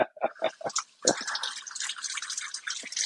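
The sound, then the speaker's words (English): Kitchen tap water runs as a handful of skinny carrots are rinsed before chopping: a few quick drips first, then a steady, hissing stream that pours on without a break. “Wash them off here.”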